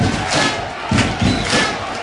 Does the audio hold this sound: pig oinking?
no